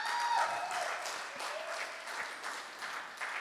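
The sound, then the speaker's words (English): A round of applause from a church audience, a steady, dense wash of clapping that holds at a fairly even level throughout, fairly faint, with no clear voices. “can we give a round of applause for a man”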